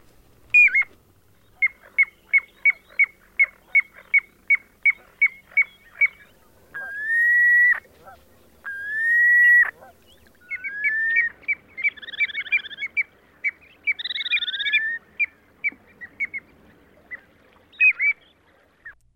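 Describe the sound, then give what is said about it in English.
Piping plover calls used for courtship, contact between mates, aggression and alarm: a fast series of short, clear high pips, then two longer whistled peeps, followed by varied warbling and chirping notes. “If you guessed a piping plover, you're right! You've been listening to some of the calls this species uses for courtship, contact between mates, aggression, or alarm.”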